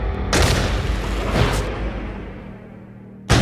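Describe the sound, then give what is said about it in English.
British soldiers' muskets fire during the Boston Massacre melee, a few heavy booms with long rumbling decays, and one more sharp blast right at the end. “a British private receives a severe blow to the head with a club and falls to the ground, causing his musket to discharge. In the melee, the soldiers open fire.”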